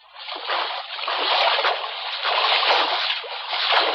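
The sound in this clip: Sloshing and splashing of someone wading through water, a continuous, fairly loud wash of water noise that swells and eases slightly over a few seconds, with no talk.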